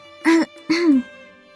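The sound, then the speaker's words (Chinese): Two short, harsh, voiced coughs come in quick succession from a person, each a rough throaty burst, loud and alone, followed by silence. “苏黎咳了几声。”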